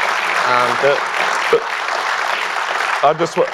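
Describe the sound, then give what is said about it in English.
An audience applauds a guest at a live mining-investor event: steady, dense clapping fills the whole stretch while a voice speaks briefly over it near the start and again near the end. “Please give a big hand to Tim.”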